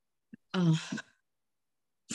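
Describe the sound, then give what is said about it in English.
A single deep breath taken during a serenity prayer at a group meeting: a half-second breathy rush with a slightly voiced, sigh-like edge after a tiny click, then silence before another breath begins. “Just taking a deep breath in.”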